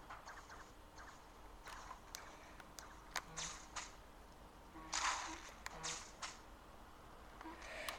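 Spider-Man web shooters fire in Fortnite as a player swings, giving a string of sharp, whip-like snaps and brief zipping whooshes at an irregular pace, faint and without talk.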